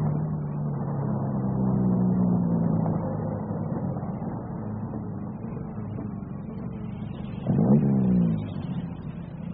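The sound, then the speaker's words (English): A convoy of vehicles rolls past as a steady engine drone that swells midway, eases, then surges louder with sweeping harmonics near the end before settling again. “We'll just let this convoy pass.”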